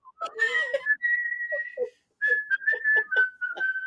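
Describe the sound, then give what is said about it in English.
Whistled rendition of a TV sitcom theme tune, a bright, clear melody of held and quick notes with a brief pause partway through, alone and without talk. “that nigga will walk in there whistling the theme song and shit”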